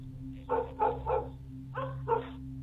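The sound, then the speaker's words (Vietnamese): A black dog barking outside the gate toward a river: five short barks in two groups, three then two, over a steady low hum. “Con chó mực ở bên ngoài, nó tự nhiên chĩa ra ngoài cổng, rồi hướng ra phía sông mà sủa nhấm nha nhấm nhẳng.”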